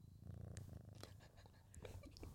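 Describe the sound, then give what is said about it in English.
A female cat purring while being held for a cuddle: a faint, steady low rumble runs throughout, with a few soft clicks and rustles on top. “Oh, it's purring”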